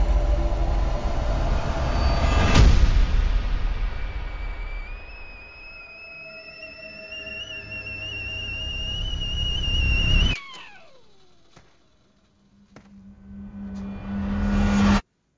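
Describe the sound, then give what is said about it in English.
Audio from the trailer for the film Relic: low rumbling swells with high whining tones that rise, then cut off sharply, leaving a quiet gap, a low hum and a final swelling rumble. “Okay, that should have been some of the trailer for Relic.”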